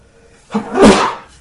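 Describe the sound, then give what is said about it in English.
A single human sneeze bursts out after a short quiet lead-in, with a sharp onset that swells into a loud, breathy blast and then fades over about half a second. “I'm about to sneeze. Hold on.”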